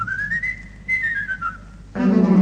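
Whistling imitates a blackbird's song by a branch of Lake Como: two clear, sliding melodic phrases in a high register, rising then gently falling, before louder music enters.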